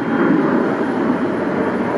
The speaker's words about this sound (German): Von dort sieht man das Rollfeld, auf dem ganz viele Flugzeuge stehen. Und starten.